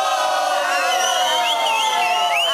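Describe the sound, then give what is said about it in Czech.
An audience shouts "fuj" in chorus, many voices joined in one loud, drawn-out jeer that holds steady for the whole stretch. “Tak například, když se vám něco nebude líbit, všichni zvoláte sborem fuj, prosím, nacvičme si.”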